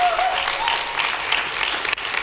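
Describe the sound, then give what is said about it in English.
Audience applause during a religious sermon, a steady burst of many hands clapping that carries through the whole short moment at even loudness. “Come on, give Him a round of applause.”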